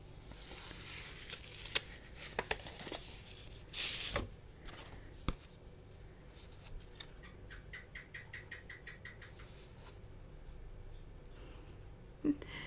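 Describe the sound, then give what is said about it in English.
Paper tearing and crinkling as a greeting card is opened: a few short rustles, one louder tearing burst midway, then soft handling noises. No talk. “Yeah, I know it's a card, but you want to open it and read what's inside?”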